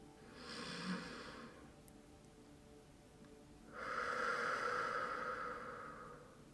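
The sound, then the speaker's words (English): Deep belly breathing: two long, airy breaths separated by a pause, the second fuller and louder and drawn out for nearly three seconds. “The breath should be deep in the belly. Should sound a bit like that.”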